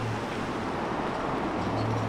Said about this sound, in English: Maybe after this guy drives by.